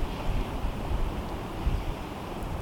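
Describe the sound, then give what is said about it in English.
Wind blowing outdoors during a photo shoot, a steady low rumble with soft, gusty buffeting and no voices. “It's just no good in this wind.”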